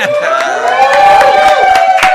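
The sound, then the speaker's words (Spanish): Loud crowd cheering and ovation for a cartoonist introduced at a panel table, with whooping, shouting voices sustained over the whole stretch. “Fíjate en mi ovación.”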